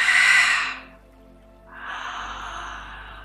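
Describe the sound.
Deep breathing during a guided meditation: a loud, breathy exhale, a short pause, then a longer and softer breath that trails off, with no talking.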